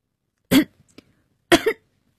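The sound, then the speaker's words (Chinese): Two sharp, choking coughs about a second apart, loud and alone, the second a little longer with a double burst. “海云呛咳了一声”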